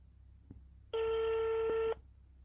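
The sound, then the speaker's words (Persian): A telephone ringback tone sounds while a call is being placed: one steady electronic ring lasting about a second, preceded by a faint click, then quiet line hiss. “پس بریم که باهاشون تماس بگیریم و مصاحبهمون رو زودتر شروع کنیم.”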